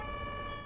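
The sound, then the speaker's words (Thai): An ambulance siren gives a steady, sustained tone with bright layered harmonics over a low rumbling background, lasting under a second. “รถพยาบาลอ่ะ”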